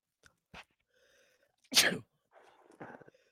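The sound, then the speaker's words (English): A single sharp, loud sneeze bursts out alone in the middle, with a few faint, brief noises before and after it. “bless you”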